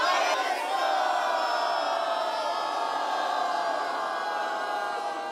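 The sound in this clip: A crowd cheers and shouts at an event in a small town in the Wetterau, a steady, dense roar of many voices that barely fades toward the end.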